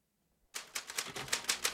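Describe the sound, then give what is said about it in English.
Typewriter keys clacking as someone types quickly on a machine whose N key does not print; after a near-silent half second, a fast, slightly uneven run of crisp strikes continues to the end. “Paul's fingers dance over the typewriter, and even though the letter N doesn't print”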